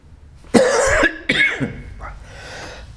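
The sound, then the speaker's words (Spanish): Coughing by a lecturer during a metaphysics course: a few harsh, throaty coughs, the first two loud and close together, then a fainter one as it fades. “Estaba tratando de evitar la tos, pero no hubo manera.”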